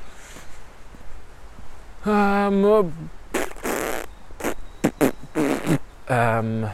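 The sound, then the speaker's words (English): A burp, a deep, voiced belch with a falling tone, followed by a few short bursts of voices. “Oh, burp.”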